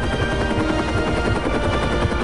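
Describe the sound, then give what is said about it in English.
A machine gunner aboard a rescue helicopter keeps up covering fire over a snowy plateau, a dense, unbroken rattling roar in which single shots blur together. “Beside them, a machine gunner continues cover fire.”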